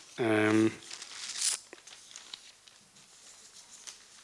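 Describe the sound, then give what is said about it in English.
Sheets of paper rustle and crinkle at a panel discussion as a speaker searches among them. A brief spoken phrase comes first, then a stretch of soft, uneven crackling and shuffling. “if I can just find it. Too many sheets of paper.”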